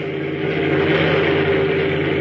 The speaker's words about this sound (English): Did you notice the strange shape of that car